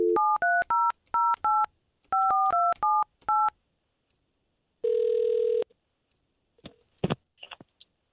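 Touch-tone telephone keypad dialing a number: two quick runs of short, clear beeps, then one longer steady ring tone and a few faint clicks.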